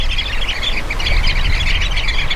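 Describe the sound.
Flock calls of a highly social bird that gathers in large groups: a steady, dense chatter of many high chirps and squawks overlapping without a break, moderately loud throughout.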